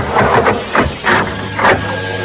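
An elevator runs as it ascends, giving a steady mechanical rumble broken by a few uneven, louder swells, with no talk over it.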